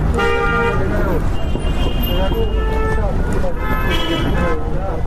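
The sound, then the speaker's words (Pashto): Busy street traffic in front of a roadside shop, with cars and rickshaws passing and honking: a dense, steady road roar broken by repeated horn toots, with talk running over it. “دی پر سړک تیرېدونکو موټرو، رکشو او خلکو ته ګوري.”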